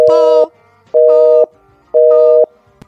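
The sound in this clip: A telephone busy signal sounds as three loud, steady mid-pitched tone bursts, each about half a second long and separated by equal silent gaps. A small click follows at the end.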